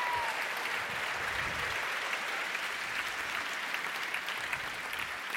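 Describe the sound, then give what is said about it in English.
Audience applause, dense and even clapping that holds steady without a break, moderately loud and alone. “Your applause is totally premature, of course. You haven't seen the film yet.”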